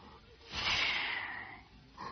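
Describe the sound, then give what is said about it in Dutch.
A walrus blows contemptuously through its mustache: one long, breathy, hissing snort that swells and then fades, followed by a shorter puff at the end, fairly soft. “De walrus ziet hen komen. Hij bekijkt hen onderzoekend met glazige bolle oogjes en blaast dan met diepe minachting door zijn snor.”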